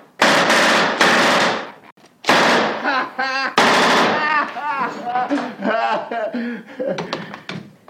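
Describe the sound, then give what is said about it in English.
A machine gun sound effect opens with dense rapid bursts of gunfire. Voices follow, with talk running through the rest. “Would you need to put in like a machine gun noise or something?”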